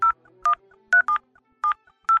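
Mobile phone keypad tones sound while a text message code is being sent: a series of short, clear electronic beeps at slightly different pitches, separated by brief uneven gaps.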